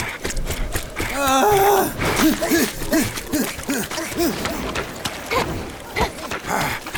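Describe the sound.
Heavy panting from a person out of breath after running and jumping across rooftops in a chase: a sharp rising gasp, then a steady series of quick voiced breaths, moderately loud against background noise.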